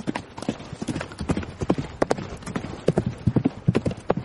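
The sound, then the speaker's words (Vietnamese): Horses gallop along a road at night under three riders, their hooves clip-clopping in a fast, uneven run of many sharp beats that continues steadily from start to end. “Ba người phóng ngựa như bay ở trên đường quan, thẳng hướng nam mà đi.”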